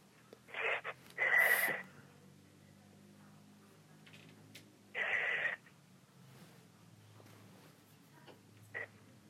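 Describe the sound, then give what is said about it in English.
Heavy breathing in and out, heard as a few short, breathy bursts separated by quiet gaps, fairly faint over a low steady hum. “Just breathe in and out 5 times heavily.”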